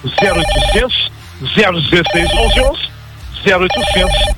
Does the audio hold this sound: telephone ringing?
yes